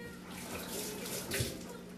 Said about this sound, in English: Here I'm washing my hands a lot because of the lemon juice that's going on my hands, and I have to use a knife after.